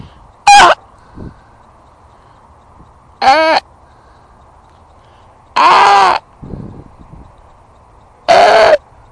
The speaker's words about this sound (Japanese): 白鳥の鳴き声をこれからもう一回してみますね。